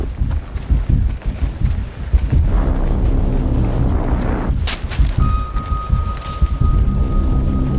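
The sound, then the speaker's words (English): Artillery fire and explosions during an artillery attack: a dense, continuous low rumble packed with many booming impacts, a sharp louder blast near the middle, and a thin, steady high tone sustained through the final part. “Artillery attack!”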